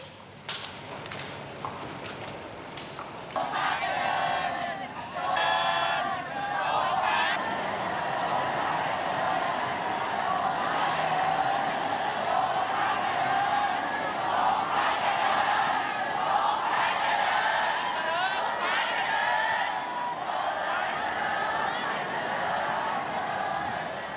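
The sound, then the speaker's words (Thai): Residents of Samut Prakan gathered along a royal route cheer 'Long live the King' in a sustained swell of many voices that rises after a few seconds and continues steadily at moderate loudness. “มีราษฎรในพื้นที่จังหวัดสมุทรปราการมารอเฝ้าทูลละอองธุลีพระบาทรับเสด็จเพื่อชื่นชมพระบารมีพร้อมเปล่งเสียงทรงพระเจริญด้วยความจงรักภักดีตลอดเส้นทาง”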